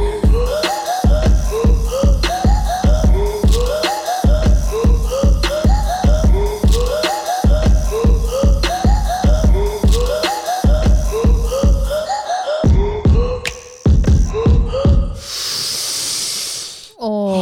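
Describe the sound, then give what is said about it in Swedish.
A deep breath drawn in: a long, steady hiss lasting about two seconds. It follows a loud, repeating rhythmic melodic pattern that stops shortly before the breath. “bara ett skönt andetag.”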